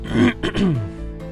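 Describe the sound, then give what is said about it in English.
A man clears his throat in a short two-part vocal rasp, a rough burst followed by a longer, lower, voiced rumble that trails off into quiet. “His father cleared his throat.”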